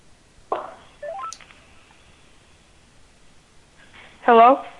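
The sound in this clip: Several short electronic keypad tones from a telephone number being dialed, stepping up in pitch after a soft rustle, then a brief voice near the end.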